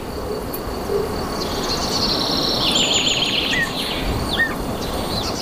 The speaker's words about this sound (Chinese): 这片茂盛的森林为处在繁殖季节的各种鸟类提供了庇护。黄鹂小心翼翼地为每一张饥饿的嘴巴投喂着相同数量的